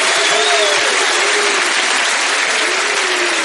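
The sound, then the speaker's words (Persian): Audience applause: dense, steady hand clapping from a crowd, loud and continuous for the whole stretch without a break. “قشنگ دست بزنی، یکی دو پرس بگیری، شل دست بزنی، اما با چایی شربت کار تمومه. یه دست بزن خسته دست بزن.”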